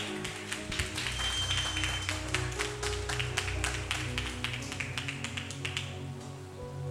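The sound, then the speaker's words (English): A church audience claps and applauds for a pastor during a live service, a dense, steady, loud patter of many hands sustained without a break from start to finish. “Come on, put your hands together for her.”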